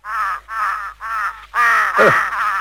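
A crow perched on a railing caws repeatedly with harsh, nasal calls. Several separate caws run into a longer, rougher final stretch, loud and alone with no talk.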